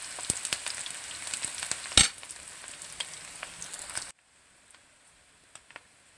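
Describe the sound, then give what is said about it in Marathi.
Onion sautéing in a pan until lightly pink: a steady crackling sizzle with scattered pops that drops abruptly to a faint, sparse crackle after about four seconds. “हलका गुलाबी रंगावर कांदा परतून घ्यायचा आहे.”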